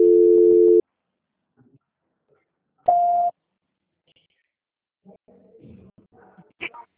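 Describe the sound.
Telephone transfer tones sound as a bank customer's call is passed to another department. A longer, lower beep comes first, then a shorter, higher one after a pause, followed by faint muffled line sounds.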